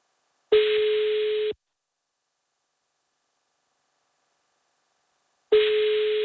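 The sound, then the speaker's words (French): Ringback tone of an outgoing phone call ringing out while the caller waits for an answer: two steady, mid-pitched electronic tone bursts, each about a second long, separated by a long stretch of silence. “Elle va pas répondre. Je l'appelle en démasqué.”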